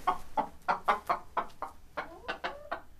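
Startled backyard hens cluck in a quick, uneven run of about a dozen short, fairly faint calls, each a clipped note with some rising squawks near the end.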